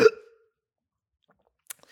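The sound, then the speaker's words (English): A single sharp hiccup bursts out at the very start and fades quickly. Near-silence follows, with a faint click later on. “I have a hiccup.”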